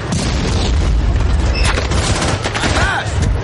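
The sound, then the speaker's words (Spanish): Explosive battle sound as a bazooka shot hits a tank in a World War II war film, set in a German offensive. Dense, loud gunfire and booming blasts run without a break, with voices faintly shouting in the mix. “Corbat dispara y da en el tanque.”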